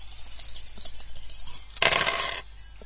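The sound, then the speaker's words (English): Dice rolling in a computer dice game scored by filling categories: a short, bright rattling clatter of about half a second bursts out after a stretch of quiet, soft background noise, then stops abruptly. “Press the space bar to roll the dice.”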